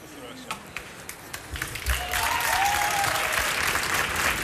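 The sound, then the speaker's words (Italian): Audience applause at a live show: scattered claps build into full, steady clapping after about two seconds and continue to the end. “Non so se dalla radio si può percepire, però ogni singolo applauso è incredibile.”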